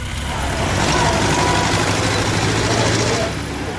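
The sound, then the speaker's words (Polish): A king's new car running with its engine going, a steady dense rumble with a low hum underneath that holds level throughout. “Nikomu innemu Alfons XIII nie zaproponowałby przejażdżki swoim nowym autem.”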